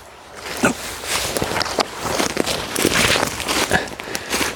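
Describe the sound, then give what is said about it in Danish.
Footsteps push through an overgrown, neglected forest with fallen trees and no path, with many uneven steps crunching and crackling over dry twigs and leaves. “Og nu hvor jeg går, så går jeg. Der er ingen sti her overhovedet.”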